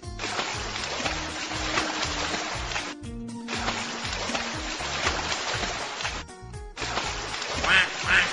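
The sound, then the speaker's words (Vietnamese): A duckling quacks repeatedly while swimming, its quacks sounding over a dense, continuous background. “Vịt con ơi, bơi chậm thôi, chờ chị với.”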